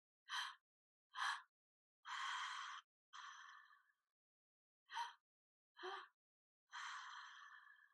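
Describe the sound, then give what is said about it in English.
Breathing exercise through the mouth: two short, sharp inhales followed by a long, drawn-out exhale, with the whole pattern heard twice. The breaths are soft and airy, with no talking. “we're going to inhale through our mouth 2 times into our heart center. And then we're going to take a long exhale. So it's going to go something like this.”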